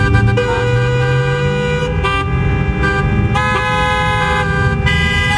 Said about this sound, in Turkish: klasik İstanbul trafiği.